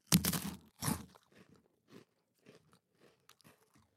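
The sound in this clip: Crunching and chewing of a freeze-dried white snack stick that tastes like soft-serve ice cream and turns sticky: two loud crisp crunches open, followed by many softer, scattered chewing crackles.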